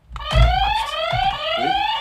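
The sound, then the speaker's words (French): A quiz buzzer pressed by accident during a rock music quiz gives one loud, sustained electronic tone with bright harmonics, lasting about two seconds. “J'ai glissé sur le buzzer.”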